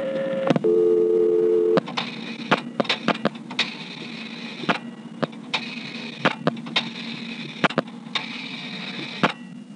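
Telephone touch-tone dialing on a customer line, a number keyed in for a ringback test: a steady tone sounds first, then many short, sharp beeps come in an irregular run, with brief pauses between groups.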